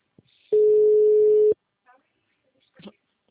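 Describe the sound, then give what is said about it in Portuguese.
A telephone ringback tone sounds as one steady, even-pitched beep lasting about a second, followed by a few faint, brief noises on the line. “tá chamando, mas se não for Cristiano, na moral, mano, tô com azar hoje na ligação aqui”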